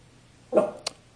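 A single short dog bark comes faintly from the background, brief and muffled against a quiet backdrop.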